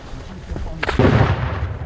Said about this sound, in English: These firing American rounds in a donated Paladin.